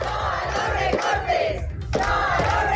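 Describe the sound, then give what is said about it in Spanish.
Protest rally crowd outside the Colegio Rural Agrupado de Carucedo school, objecting to the removal of a support and music teacher: many voices shout and chant together, loud and continuous. “Concentración de protesta también ante el Colegio Rural Agrupado de Carucedo.”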